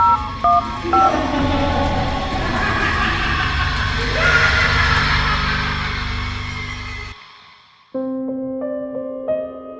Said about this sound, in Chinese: 原来又系同样响呢个电话嘅四个声，嘟嘟嘟嘟咁样。